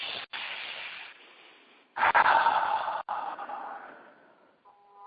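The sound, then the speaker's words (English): A deep breath taken at the start of a group prayer, heard alone as a long breathy rush of air. It swells louder halfway through, then tapers off slowly. “So let's all take a big deep breath.”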